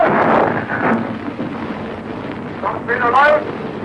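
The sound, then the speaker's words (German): A submarine torpedo hisses out of its launch tube in a steady, broad rushing noise that runs the whole length, with a man's voice heard over it at the start and again near the end. “Zischend hat der Aal das Rohr verlassen. Torpedo läuft, kommt die Meldung aus dem Boot.”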